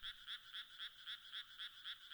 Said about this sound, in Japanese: なんか田舎の夜って人の生活音がないんだね。虫やカエルの声は BGM みたいだし、逆に落ち着かない感じ。